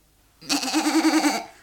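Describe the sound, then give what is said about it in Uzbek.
A mother goat bleats once, a single wavering, nasal call lasting about a second with a quick tremolo, loud and alone after a moment of quiet. “O'tkir shohli, keskir tuyoqli ona echki biroz o'ylabdi.”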